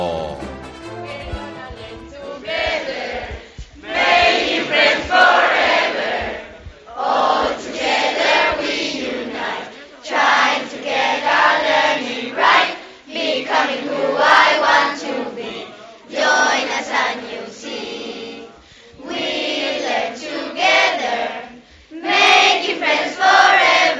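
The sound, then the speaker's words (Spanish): Students at the British College of Seville in Urbanización La Juliana, Bollullos, sing and chant together in loud group phrases, each burst separated by short pauses. “Esto es cómo canta y cómo suena el alumnado.”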